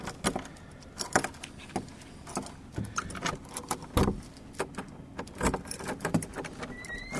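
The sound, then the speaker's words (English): Keys jangle and click as someone pulls them out on returning home, a steady run of many small metallic jingles and taps through the whole stretch, with no talking. “Get my key out.”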